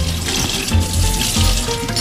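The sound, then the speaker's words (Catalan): Running water as poussin chickens are rinsed with a little water: a steady, splashing stream from a tap, heard alone and unbroken. “el que fem primer és netejar els picantons amb una miqueta d'aigua i els salpebrem.”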